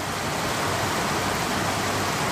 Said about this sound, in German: Es regnet in Costa Rica. Endlich.